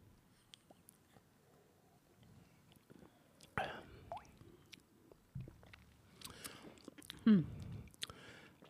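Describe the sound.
Quiet sips and wet mouth sounds as people taste a Ringnes Christmas soda: a few soft, squishy bursts spread across a near-silent background.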